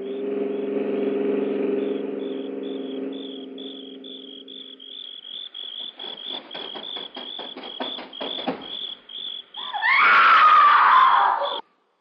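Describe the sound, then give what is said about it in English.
A woman's loud scream with a falling pitch bursts out near the end, heard from a car driving along a road. Crickets chirp steadily throughout, with a low hum early on and a run of rattling clicks before the scream. “Roger, listen. Sounds like a woman screaming.”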